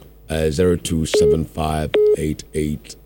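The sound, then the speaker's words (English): Short telephone tones sound during a live radio call-in show as the host takes a call. Brief, steady beeps occur twice amid voices. “Let me take my last call. It's past 12 now. I'll take my last call.”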